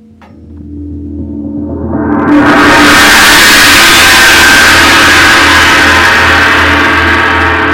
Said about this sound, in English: As my comet races forward, I experience an intense, searing heat.